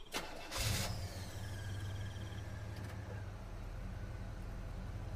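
A car engine cranks and catches after a brief click, then runs with a steady low rumble as the car is driven along a highway at night.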